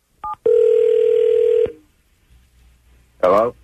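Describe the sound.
Telephone dialing and tone: a brief electronic beep, then a steady, even tone held for just over a second. Quiet line hiss follows, and a short voice is heard at the end.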